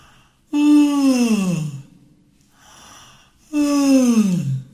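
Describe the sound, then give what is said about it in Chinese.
A person imitates two loud, voiced yawns to demonstrate a singing technique. Each yawn starts high and slides down in pitch, and a softer breathy exhale falls between them. “这个时候你会很想要打个哈欠吧，对不对？就会像这样”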